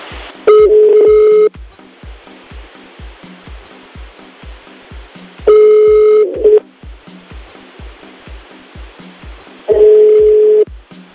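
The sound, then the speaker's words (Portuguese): Telephone tones as a call is placed and rings unanswered: three long, steady electronic tone bursts spaced several seconds apart over a quiet, regular low ticking pulse, with no talking. “Vamos ligar para Nayana.”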